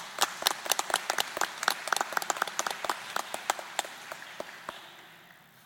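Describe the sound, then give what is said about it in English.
An audience applauds the teachers at the end of an event: many sharp individual claps, sparse rather than dense, tapering off and growing fainter toward the end. “I think we should give the teachers in the audience a big hand.”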